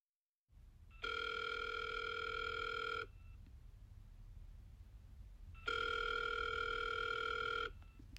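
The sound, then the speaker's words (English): A telephone rings twice before the call goes to voicemail. Each ring is a long electronic burst of about two seconds, separated by a pause, over a faint low rumbling background. “Oh, it's gone to voicemail.”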